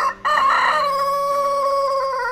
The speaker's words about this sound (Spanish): el gallo asado se levantó y cantó